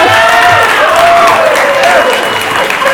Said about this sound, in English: Give a big round of applause.